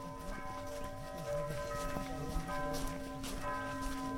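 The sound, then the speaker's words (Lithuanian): Church bells ring at a monastery in a village, a faint wash of sustained, overlapping metallic tones with a few fresh strikes. “O šie varpai skamba Tiberiados vienuolyne, kuris yra įsikūręs Baltriškių kaime.”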